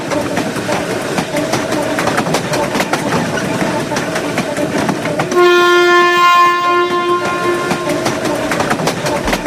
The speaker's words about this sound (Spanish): Nos subimos ahora a un tren con Elena del Amo